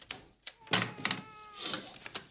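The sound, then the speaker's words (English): Paper feeds into a typewriter at a small desk: a few soft clicks and ratcheting scrapes of the roller, with a brief whirring tone in between. “Logan's sitting at a small desk, loading paper into his typewriter”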